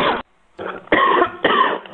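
A person with acute bronchitis coughs a few times in harsh, rough bursts separated by brief pauses, with no speech.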